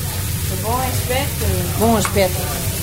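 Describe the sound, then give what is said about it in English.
Sardines, sea bass and sole sizzle on a grill in northern Portugal, a steady, hissing crackle running throughout beneath a talking voice. “on the grill are these beautifully glistening sardines, sea bass, and sole, which is quite a rare thing to have fresh in Portugal”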